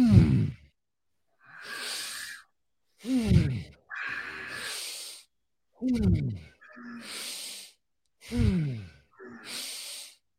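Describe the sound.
Deep, deliberate breathing during a breathwork exercise, four slow cycles that each pair a voiced, sighing breath falling in pitch with a long, airy hissing breath. Quiet pauses separate the cycles.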